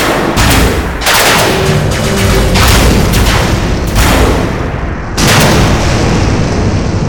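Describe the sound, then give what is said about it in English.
A giant robot fires all its weapons at once, a loud, dense barrage of booms and blasts that rolls on without a break, with a few heavier hits standing out. “The Ultrazord fires with everything it has.”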